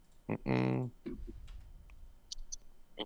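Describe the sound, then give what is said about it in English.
A few sharp computer mouse clicks while a web page loads slowly. A brief stretch of speech comes first, then quiet, isolated clicks that arrive irregularly. “I don't know why this page is taking so long to load. College football. Click it.”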